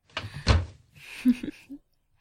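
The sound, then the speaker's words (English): A door being shut: a sharp knock and a heavy low thud, followed by a few softer clicks and brief rattles before it falls quiet. “Shut the door.”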